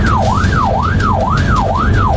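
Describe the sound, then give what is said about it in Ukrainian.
Ambulance siren wailing as the vehicle sets off, a loud, steady electronic tone sweeping up and down in regular cycles, about four in quick succession, over a low engine rumble. “Дуже швидко разом із оператором сідаємо в карету швидкої допомоги. Водій вмикає сигнал і одразу рушаємо.”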